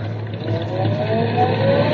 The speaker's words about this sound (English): Now easy on the clutch and light on the gas. Easy on the clutch and light on the gas.